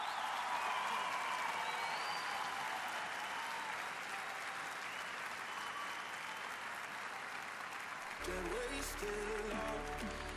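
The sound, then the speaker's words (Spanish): Strong audience applause at the Teatro Colón, a dense, steady roar of clapping for about eight seconds before music with a low bass tone comes in. “¡Fuerte el aplauso!”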